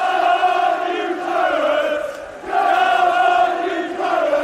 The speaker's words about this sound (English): I apologise for the background noise. We're in the vintage Claret. We're just after a fantastic 3-0 win, and as you can imagine, it's quite noisy.